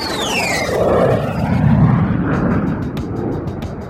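An airplane taking off: a loud, sustained roaring engine rumble, with a high whine that slides down in pitch early on, heard alone without talk.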